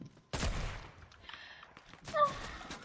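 Gunfire in a shooter video game: a loud, sharp burst of shots, quieter clatter, then another strong burst near the end.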